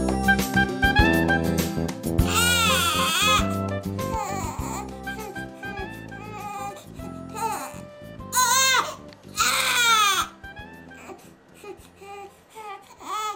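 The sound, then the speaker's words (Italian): A baby cries loudly in long, repeated wails with strongly wavering pitch, broken by a few short pauses and sobbing catches, continuing through the whole stretch. “Questo bambino sta piangendo, semplice, no?”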